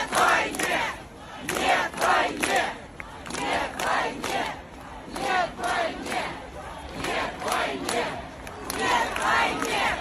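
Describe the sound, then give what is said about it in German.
Crowd chanting a slogan at a demonstration in Moscow: many voices shout the same short phrase over and over in a steady rhythm, loud, with brief dips between repetitions. “Das war eine Demo in Moskau. Alle haben Nyatwajnie gerufen.”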